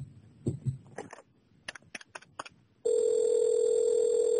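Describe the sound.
A telephone call to a doctor is dialled in a Turkish radio drama. Some soft handling noise leads into several short keypad beeps, then a loud, continuous, steady ringing tone.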